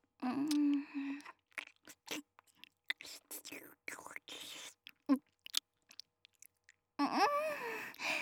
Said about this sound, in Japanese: うわ、改めて見るとすごい量のタピオカね。これは食べ応えがありそう。じゃあいただきます。